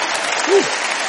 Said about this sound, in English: Now let's give the Lord a hand clap for what he's done.